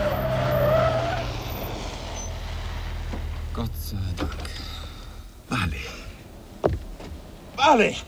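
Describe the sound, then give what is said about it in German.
A car brakes hard at a railway crossing, its tires skidding and squealing in a few short, sharp bursts over a low engine rumble. Voices are heard around the noise. “Der Bahnübergang! Rotes Blinklicht! Bremsen!”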